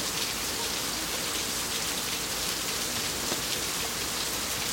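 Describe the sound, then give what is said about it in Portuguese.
Heavy rain falls in a loud, dense, steady hiss with no pauses or voices throughout. “Tá chovendo demais.”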